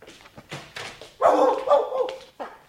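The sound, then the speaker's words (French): A dog barks and whimpers excitedly: several short yips, then a longer, loud whining bark and one more quick yelp. “Il est vivant! C'est lui! C'est... Oh, oh, oh, c'est mon chien!”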